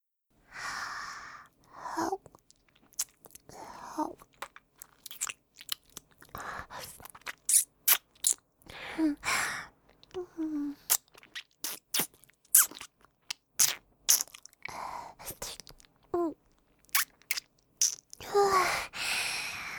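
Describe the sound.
ASMR mouth sounds imitate eating a little finger: many soft, wet clicks, smacks and crunchy nibbles come in irregular bursts. Quiet breaths and sighs are heard between them, all fairly faint and close.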